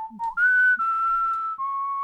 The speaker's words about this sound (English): We'll be back after the whistle.